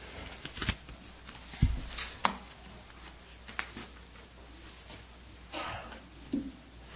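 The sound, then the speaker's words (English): A worn paper folder is handled as it rips apart, giving irregular rustling and crinkling with a few sharper snaps and tearing sounds scattered throughout. “My folder is ripping apart.”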